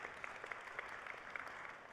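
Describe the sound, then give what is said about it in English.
A church audience applauds people pledging their lives to Christ at a service, a dense, steady clatter of many hands that stays even and unbroken for the whole stretch, with no voices above it. “Like, give yourself a round of applause for that. Like, big round of applause for all the people.”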